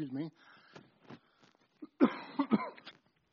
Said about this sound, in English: Now cough again.